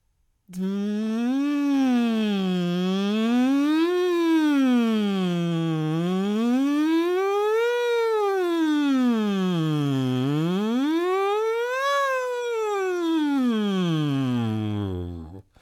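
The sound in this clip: A singing voice buzzes through a straw in a range-expanding vocal exercise, holding one continuous tone that glides smoothly up and down in four siren-like sweeps. It is sustained and even in loudness, with no talking.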